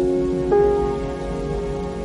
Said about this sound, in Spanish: La lluvia chorrea sobre el hombre.